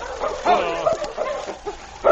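King, a sled dog at the Grand Forks mining community, barks and yips in a few short bursts, with some whimpering.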